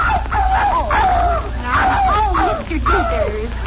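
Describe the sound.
A dog named Daisy yelps and whimpers after her tail is stepped on, giving a string of high, wavering cries whose pitch bends up and down throughout.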